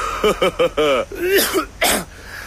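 A man with a bad cough lets out a quick run of short, voiced hacks, then a couple of longer, harsh, rasping coughs, loud and alone.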